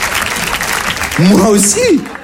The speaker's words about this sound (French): Ils applaudissent, bah oui.